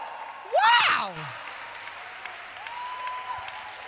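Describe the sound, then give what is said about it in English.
Applause from a worshipping audience at a religious gathering: steady, dense clapping throughout, with a shrill rising-and-falling whoop from one voice early on and a brief thin tone near the end. “I know you've been dying to put your hands together and make some noise.”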